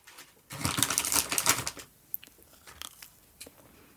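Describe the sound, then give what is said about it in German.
Biting into and chewing a homemade cookie: a dense burst of crisp crunching, followed by sparser, quieter chewing crackles, with no talk. “Bietest du mir vielleicht mal ein Plätzchen an? Plätzchen? Danke.”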